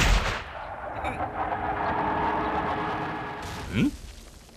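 Gunfire aimed at houses below a city wall: a loud blast opens, then a rumbling, noisy stretch follows before a short, sharp burst near the end.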